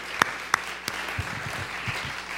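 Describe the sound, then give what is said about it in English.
Audience applause at a church service welcoming a speaker to the platform; a few sharp, distinct claps at the start, then a softer steady wash of clapping. “Let's give Damaris a good big hand.”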